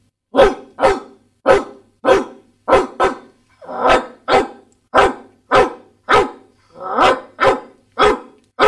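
A Doberman barks many times in a steady, evenly spaced rhythm, each bark loud and sharp with a brief gap before the next, with no other sound between.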